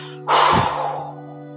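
One deep, forceful exhale after a held breath during a guided breathing exercise. It starts sharply, then thins out and fades over about a second over a steady low drone.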